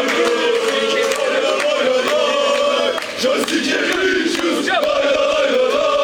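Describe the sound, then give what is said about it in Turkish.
Fenerbahçe basketball supporters gathered outside the arena in rainy weather chant loudly, sending the team off to the EuroLeague Final Four in Athens; sustained, massed voices hold a continuous, full roar throughout. “Yağışlı havaya rağmen salon önünde toplanan Fenerbahçeli taraftarlar tezahüratlarla takıma destek verdi.”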